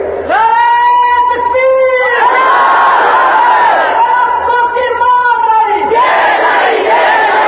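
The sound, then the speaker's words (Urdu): A crowd chanting slogans at a speech: loud massed voices shouting phrases in unison, repeated in a strong, regular pattern. “بس کرے نعرے”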